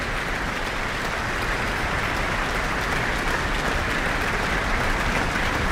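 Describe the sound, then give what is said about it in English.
An audience and orchestra applaud after a Mozart concert, producing a dense, steady roar of clapping that holds at an even, fairly loud level from start to finish with no voices above it. “He's just taken another bow. And with audience and orchestra applauding, he's back on the stage with our guest conductor tonight”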